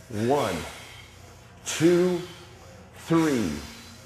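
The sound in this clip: Three forceful exhalations during a guided breathing exercise, each a breathy, partly voiced sigh lasting about half a second, with quiet pauses in between.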